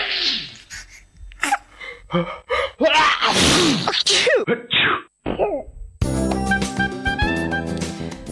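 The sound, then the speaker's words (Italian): Sneezing, with a quick run of sharp gasping inhalations and explosive nasal bursts, loud and irregular, then a stretch of music taking over near the end. “ma arriva lo starnuto liberatore, o meglio purificatore.”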